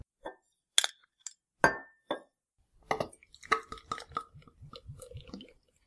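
Glass clinks as a crisp 4.9% beer is opened: a few sharp, separate chinks come first, then a denser run of many quick small clicks and taps, with no voices.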